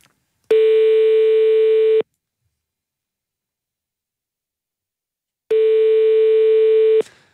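Telephone ringing tones while calling a number back: two long, steady buzzing tones, each about one and a half seconds, separated by several seconds of silence.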